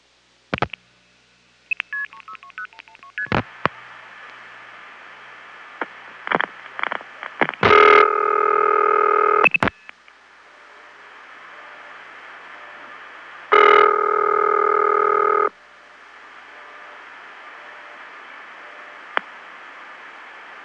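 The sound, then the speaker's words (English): Switchhook flashes and dialing tones on a telephone line into an NX1 exchange: a run of sharp clicks and short tone bursts, then two long steady tone blocks of about two seconds each, separated by a quiet, hissy line. “a long-distance call from another NX1 to this one would be charged for this call, because NX1s don't tolerate flashes like what you're about to hear.”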